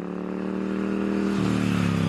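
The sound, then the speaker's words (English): Norton motorcycle engine revving: a loud, continuous throaty drone that steps up in pitch partway through and keeps climbing as the revs build. “It's the sound of one of the most iconic British brands. But for years, Norton motorcycles were silent.”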